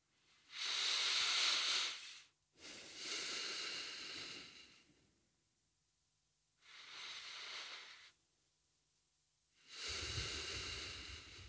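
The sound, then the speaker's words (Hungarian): Deep, slow breaths in and out during a guided body-awareness exercise, each a soft, airy hiss. Four long breathing sounds are separated by quiet pauses. “csak három darab levegőt vegyünk, és ezen keresztül érzékeljük a testünket ez pár másodperc, három levegő.”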